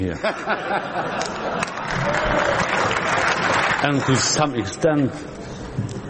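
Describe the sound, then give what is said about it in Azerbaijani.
Members of the European Parliament applaud, producing a continuous patter of clapping across the chamber, while a voice speaks prominently over it and some murmuring chatter mixes in. “Sizi burada sonuncu dəfə də alqışlayırlar”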